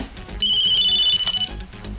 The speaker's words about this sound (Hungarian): Hát itt be is csörgött az életünkbe a mobiltelefon. Azt hittem, hogy valakinek éppen megszólal.